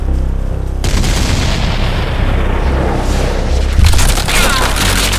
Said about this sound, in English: They're firing at us!